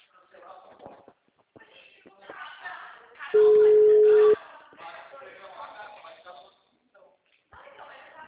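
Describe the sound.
A single telephone ringback tone, a loud, steady, one-second beep, sounds on the line as an outgoing call is placed. People talk before and after it.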